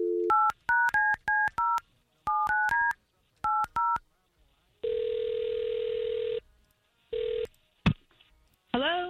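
A telephone number being dialed: rapid keypad tones in three quick groups, the first longest and the last shortest, followed by a long ringing tone and a shorter one as the call connects.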